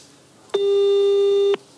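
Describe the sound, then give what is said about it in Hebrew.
A single steady electronic telephone tone from a call ringing out unanswered lasts about one second, even and mid-pitched, alone over faint background noise. “הנה, צנצי מנסה להתקשר אליו”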